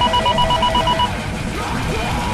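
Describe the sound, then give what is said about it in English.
Ringtone-like electronic beeping in the style of a Nokia phone, heard in a music track: a quick repeated pattern of high, bright tones pulses over loud music for about a second, then stops while the music carries on. “What is that? Nokia phone?”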